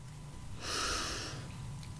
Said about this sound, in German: Und dann atme mal ruhig ein.